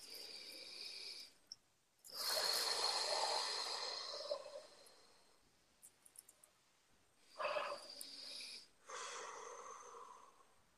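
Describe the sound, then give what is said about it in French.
Slow breathing during a guided French affirmation session: a few long, airy breaths, soft and hushed, separated by quiet pauses, with no voice. “Alors, une respiration.”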